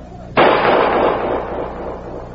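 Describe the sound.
A single loud gunshot fired at agents in the dark cracks suddenly after a moment of quiet, then rings and decays slowly.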